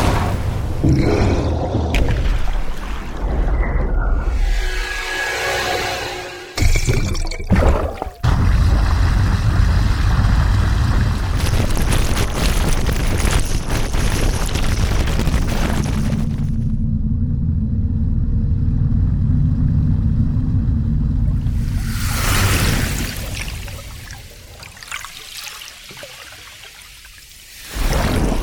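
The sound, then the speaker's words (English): Underwater sound effects recorded with hydrophones: a loud, continuous montage of shifting textures, with deep rumbling, flowing and bubbling water, and a steady engine-like drone through the middle, changing character every few seconds. “These sound effects were recorded from a wide variety of underwater perspectives using state-of-the-art hydrophones.”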